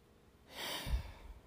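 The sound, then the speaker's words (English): A single deep breath, a soft airy rush that swells and then eases out. It is faint and heard alone, with no talk over it. “sometimes I have to take a deep breath like I just took there”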